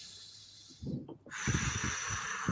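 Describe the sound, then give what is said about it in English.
A slow Ujjayi yoga exhale: a steady, breathy hiss through a narrowed throat, fairly loud. It breaks briefly midway, then the airy rush resumes. “There's some of that exhale. Was it the Ujjayi breath from yoga?”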